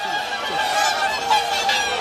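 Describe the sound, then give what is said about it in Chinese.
A large, dense flock of swans honks continuously, with many overlapping nasal calls forming a steady, busy chorus and no voices present. “好多天鹅呀，这天鹅看着都健康的呢。”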